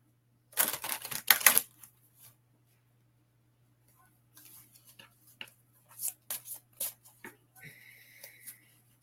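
Oracle cards are shuffled and pulled from a deck during a spirit-animal card reading. A dense burst of quick riffling lasts about a second, followed later by a few scattered soft flicks and slides.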